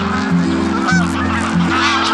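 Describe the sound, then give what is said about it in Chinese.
Wild geese, with swans, calling at a Yellow River floodplain wetland in Ningxia: loud, continuous overlapping honks from several birds, some calls rising out of the steady chorus, with no voices. “较早抵达这里的是大雁和天鹅，它们能准确预判湿地冰面消融的时间。”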